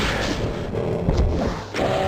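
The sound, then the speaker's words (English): A rocket launcher fires in a video game against slow, tough enemies, a few heavy booms punching through a continuous low rumble, with sharp dips and surges in loudness between blasts. “I'm just running away from them right now, but I think we'll start shooting them with our rocket launcher. More than one rocket, okay.”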